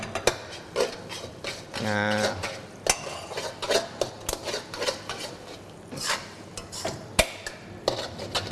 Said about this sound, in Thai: ได้เลยครับผัดให้เข้ากันแล้วตัวน้ำซอสของเราก็ได้ที่แล้วนะครับความเหนียวตามที่เราต้องการเลยเราก็ใส่ลงไปนะ1ทัพพีก่อนนะครับเราก็ดูปริมาณ1เสิร์ฟนะครับเราก็หยอดลงไปได้เลย